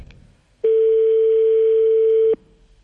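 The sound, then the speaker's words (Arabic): Telephone ringback tone as a call rings through: one steady, loud mid-pitched tone lasting under two seconds, rising out of faint background noise and stopping abruptly. “كان الرقم يرن، جماعة سيدي العيدي”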